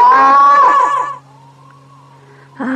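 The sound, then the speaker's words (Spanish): A woman screams loudly in one sustained, high, piercing cry of about a second. It drops to a faint steady hum, and another loud burst cuts in at the very end. “¿No oyó los gritotes hasta allá?”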